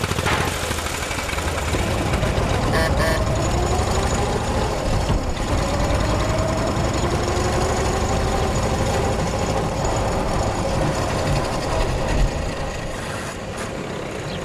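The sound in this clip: A car engine runs steadily as the car is driven, a loud continuous drone with rough, rasping road and mechanical noise throughout and no voices.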